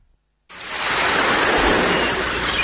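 Sea waves wash in as a broad, hissing rush of surf that swells up after a short silence, then stays loud and even.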